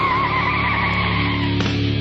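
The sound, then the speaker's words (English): A tire-skidding sound effect for a news van, a sustained squealing whine with steady high tones over a low rumble, ending in a brief rougher burst, with no voices. “Fire up the Hideout News Van.”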